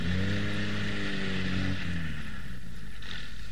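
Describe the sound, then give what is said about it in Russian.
A car engine drones loudly as the car is driven into a yard. The steady hum slides down in pitch, then thins into a duller, lower rumble. “давай загоняй машину во двор!”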